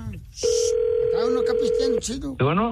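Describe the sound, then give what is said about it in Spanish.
A telephone line tone sounds while a call is being dialed, a steady pure hum lasting about a second and a half, surrounded by overlapping voices talking before and after it. “Está marcando, está marcando, está marcando.”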